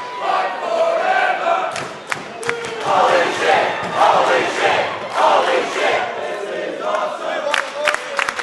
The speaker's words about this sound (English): is also a chance for the crowd to whoop and holler as they get behind their favourite. Half of the fun of watching the show is the audience participation. It's quite infectious. Some reactions have clearly evolved over time. There's chants about the match.